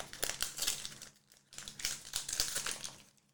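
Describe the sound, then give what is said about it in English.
A sticker pack wrapper is torn open with crisp plastic crinkling and rustling in two busy stretches split by a brief pause, fading at the end. “So, I am going to go ahead now and uh, flip over here to my pack and let's uh, open it up.”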